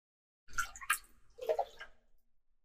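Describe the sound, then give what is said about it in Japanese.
Liquid pouring into a cup as a drink is refilled, heard as a brief, uneven splashing pour in a few bursts that tapers off within about two seconds. “はい、注ぐよ。このくらいかな。”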